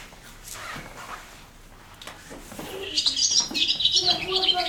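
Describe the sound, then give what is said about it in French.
Swallow song: rapid, high twittering chirps burst in during the second half and keep going, louder than the soft, indistinct sounds before them. “L'hirondelle, allez. Et ben, du coup, elle est sur celle-là, je vous la fais écouter.”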